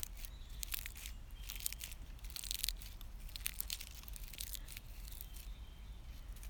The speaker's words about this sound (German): Ich greife gerade einen trockenen Tannenzapfen. Hör, wenn ich ihn drücke, wie trocken er sich anfühlt.